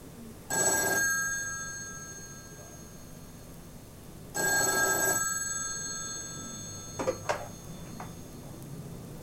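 A telephone bell rings twice, each ring a short, bright, metallic burst, with a pause of several seconds between them, followed by a few faint clicks.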